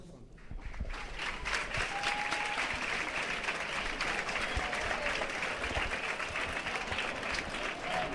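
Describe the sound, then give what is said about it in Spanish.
Sustained applause from a large crowd at a high school graduation ceremony for second-year bachillerato students receiving their class photos. After a brief quieter start, the clapping stays dense and steady for about seven seconds. “Los aplausos. Como oyen, el ambiente está muy cargado, hay bastante gente”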